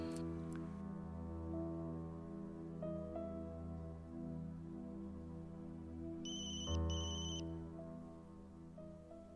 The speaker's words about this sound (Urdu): مریم کہاں ہو؟ کیوں فون نہیں اٹھا رہی ہو؟